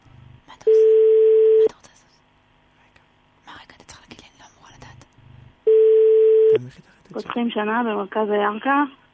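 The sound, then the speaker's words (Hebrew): A telephone dials out to a listener, giving two long, steady buzzing ring tones separated by a gap with scattered faint clicks, and a voice speaks right after the second ring. “אנחנו הולכים לחייג אל אחת מכם, אתם תצטרכו לענות לנו”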